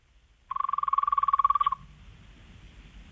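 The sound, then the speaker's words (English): A person imitating a frog croak: a single buzzing call of about a second, made of a rapid train of many even pulses at a steady pitch, heard alone and fairly loud. “The frog is one of them. Well, let's finish with the frog. Hit us with it.”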